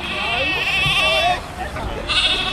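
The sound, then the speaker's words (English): Lambs bleat at a farmers' rally outside the Korean embassy in Canberra, with loud, wavering, high-pitched cries over a steady murmur of background noise. “They had their lambs with them.”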